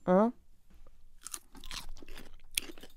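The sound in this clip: Faint crisp crunches come as someone tastes a cucumber salad with a spicy dressing. A short loud vocal sound comes first, then a few soft crunching bursts with quiet talk.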